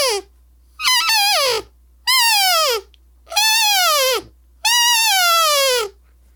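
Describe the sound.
An open-reed Flex Mark elk call is blown in five nasal, squealing calls separated by silences. The first is short and the later ones run longer, each wavering and bending downward in pitch at its end.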